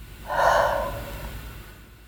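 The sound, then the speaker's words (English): A single deep inhaled breath, taken together during a guided group reflection exercise, swells quickly into a soft airy gasp-like intake and then tapers gradually away, with no talking. “We take a breath together.”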